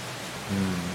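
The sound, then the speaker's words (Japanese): Heavy downpour during a thunderstorm in Singapore, with large raindrops: a faint, steady, even hiss of rain with no distinct individual drops. “土砂降り土砂降りですね”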